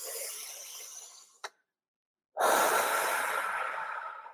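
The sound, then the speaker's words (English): Deep breathing during a guided breathing exercise: two long, loud, airy rushes of breath separated by a brief pause of near silence, with a small click just before the gap and no talking. “one way I get back into my body is by taking a deep breath. So I'm going to invite you to do that with me now. Take a deep breath in.”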